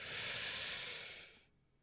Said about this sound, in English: Sorry to blow into the mic there, but, you know, need to create effect so that, you know, I'm a living human being behind here, not some machine.